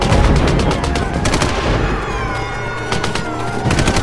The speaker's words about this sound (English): Keep firing with the 50 cals. Don't let them get past the checkpoint.